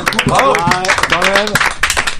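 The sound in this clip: An audience applauds with brisk clapping while lively voices carry over it throughout.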